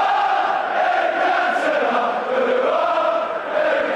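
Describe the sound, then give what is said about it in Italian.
Football fans sing without pause in a stadium during a league match against Liverpool. The voices form a dense, loud, continuous mass, holding a steady chanted melody that sways slightly in pitch. “Partita di campionato contro il Liverpool. I tifosi non smettono di cantare un solo minuto.”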